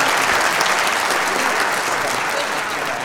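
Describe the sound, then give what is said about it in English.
Studio audience applause for the guests of a family talk show: dense, steady clapping at a loud level that thins slightly toward the end, with no voices over it. “Let's give him a hand, everybody.”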